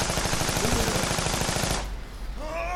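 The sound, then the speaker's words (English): Rapid gunfire sound effects for a fight scene in an alley: many sharp shots in quick succession, loud and dense for almost two seconds, then cutting off into a fading tail. “My shots pinged off the enforcer”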